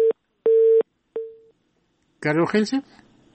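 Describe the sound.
A telephone busy signal sounds after a call is cut off: three steady electronic tone pulses of uneven length, the last one fading, before a voice starts speaking.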